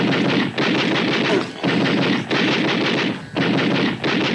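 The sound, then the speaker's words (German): Rapid, loud video game gunfire rattles on in five long sustained bursts, each separated by a short break, with no voices over it. “Schieß, verdammt nochmal, schieß.”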